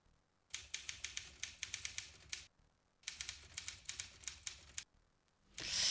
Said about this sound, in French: on a été hacké par une machine à écrire, visiblement.